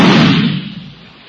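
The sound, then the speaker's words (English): A gunshot fired into a pillow makes a single muffled, deep thump with a short dull burst that fades away within about a second. “You know, it's pretty easy. You stick a gun into a pillow or something else soft and... Well, listen.”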